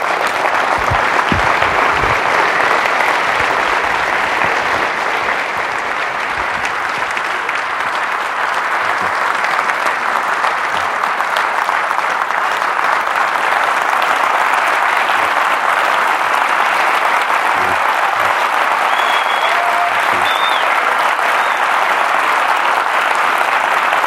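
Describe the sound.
An audience applauds to welcome the speaker Tim Flannery at an evening talk, a dense, steady roar of clapping that stays loud and even for the whole stretch, with no break and no voices rising above it.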